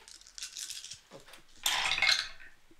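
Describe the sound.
Dice clatter and rattle through a faulty dice tower at a tabletop game, with light tumbling clicks early on and then a denser, louder burst of rattling before it dies away. Quiet overall, with no talk.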